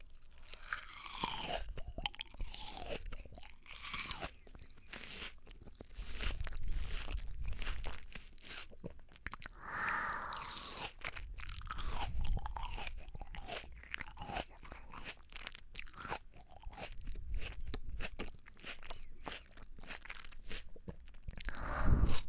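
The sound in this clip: Crunchy chewing of a small melon: many crisp, wet bites and munching crackles continue steadily without pause, fairly close and moderately loud, with no talk.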